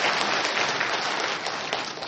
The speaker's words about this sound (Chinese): 我们为这些弟兄姐妹鼓掌好不好？